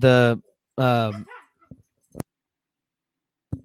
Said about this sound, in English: I had to yell at the dogs. Can you shut your dog?